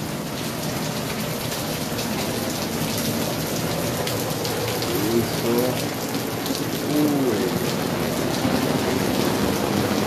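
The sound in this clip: Heavy rain drums on an awning in a dense, steady hiss, with a person speaking briefly over it.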